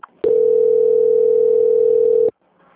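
A telephone tone plays while a call is transferred: one steady, mid-pitched continuous beep lasting about two seconds, heard alone and cutting off abruptly.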